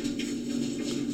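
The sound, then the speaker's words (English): An empty clothes dryer runs with a steady droning hum and a broad rushing rumble from the tumbling drum. Faint irregular knocks sit within the even noise throughout. “Right, so we have the native sound of our dear dryer.”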